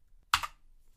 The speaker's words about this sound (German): und müsste jetzt mal ja. auf F9 drücken, damit sich alles aktualisiert.